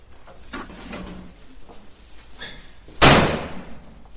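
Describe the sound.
A door is shut and locked up for the night: a few faint knocks and rattles, then one sharp, loud slam that rings briefly before fading.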